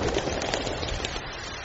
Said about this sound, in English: In the rain? Precisely. What can you see? Water falling through the bloody air. That's what rain does.